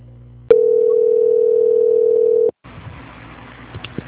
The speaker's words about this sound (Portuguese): eu peço que o senhor aguarde em linha, que eu vou transferir agora a ligação para o controle de qualidade